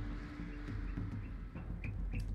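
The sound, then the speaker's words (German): Faint bird chirps, a few short high calls over a steady low background hum. “Ist der Vogel bei dir im Hintergrund?”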